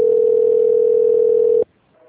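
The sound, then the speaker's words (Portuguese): Ringback tone of an outgoing telephone call: one loud, steady mid-pitched tone held for about a second and a half, then cut off into near silence. “agora, eu te ligo.”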